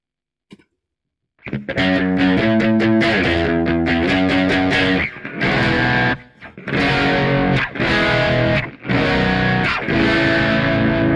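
Electric guitar played through a fuzz effect on a Kemper Profiler, a guitar with three single-coil pickups, gives a thick, nasty distorted tone. One faint pluck comes first, then loud sustained chords and notes ring out with a few brief gaps, with no talking.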